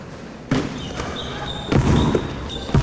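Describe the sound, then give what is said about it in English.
Basketball bouncing after a free throw drops cleanly through the net: a few dull, punchy thuds spaced unevenly over a steady bed of background noise. “Nothing but net. The ball bounces right back to him.”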